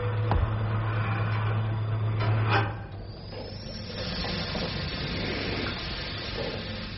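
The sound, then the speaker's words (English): Air pumps into a spacecraft airlock. A low mechanical hum with a steady tone runs first, then a brief knock sounds and a broad, steady hiss takes over and continues to the end. “I wonder if it is air pumping into the lock.”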